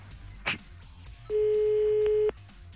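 A telephone ringback tone sounds on a call line: one steady, fairly loud electronic tone lasting about a second over a faint hum, preceded by a short click.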